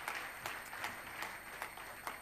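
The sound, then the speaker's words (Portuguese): Faint applause from a church audience welcoming its guests, with soft, rhythmic claps recurring at a steady pace over a low wash of noise. “Um aplauso a Deus pela vida dos nossos amigos.”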